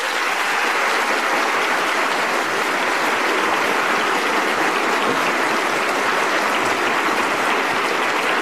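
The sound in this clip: Loud, sustained audience applause welcomes four panellists onto a word-game panel show, a thick, unbroken roar of many clapping hands that holds steady from start to finish.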